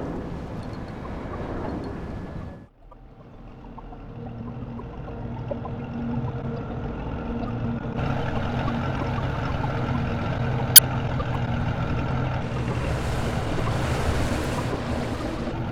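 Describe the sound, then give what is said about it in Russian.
A boat moves over waves with a continuous rush of water and wind, steady in level. The texture shifts abruptly a few times, and a single sharp click sounds midway. No voices are heard. “Это лодка, на которой сбежала Джейн.”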